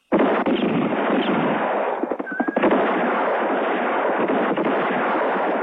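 Gunshots in a tense standoff outside a house: a dense, continuous barrage of shots blurring into a loud, rough roar for several seconds, with no talk.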